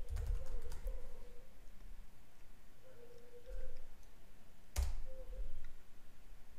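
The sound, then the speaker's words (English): Typing a message on a computer keyboard: faint, soft clicking keystrokes in uneven bursts, with a few slightly louder taps standing out from the quiet patter. “So now I will type the message.”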